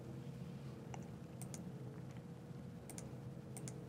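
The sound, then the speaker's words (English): Sparse, faint keystrokes on a computer keyboard as a share name is typed, a few isolated clicks spread over a low, steady background hum. “So let me type in a share name.”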